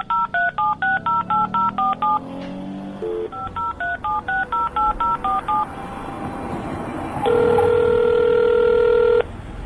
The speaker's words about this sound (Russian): Согласился, наконец, отец и торопливо зашагал к телефону.